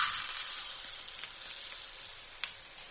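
Arborio rice toasts with onions in a pan for risotto, giving a soft, continuous crackling sizzle with a single faint tick near the end.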